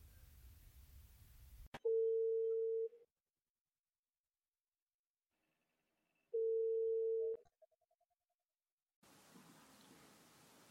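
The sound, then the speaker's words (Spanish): A telephone line tone as a listener's call is put through to a radio call-in show: two steady mid-pitched tones about a second long, separated by several seconds of silence, followed by faint line hiss and no talk. “vamos a dar paso a la última llamada de hoy. Ella es Lucía y nos llama desde Valencia.”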